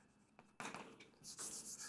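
Writing on a board: faint, scratchy rubbing strokes come in a few bursts, louder toward the end.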